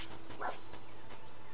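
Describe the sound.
A person's voice imitates a puppy with one short, high, whimpering yip over a steady background hiss.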